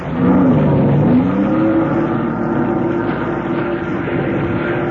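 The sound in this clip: A 230-horsepower Johnson motorboat engine speeds off on a lake with a loud, dense droning roar. Its pitch climbs in the first second or so, then holds steady.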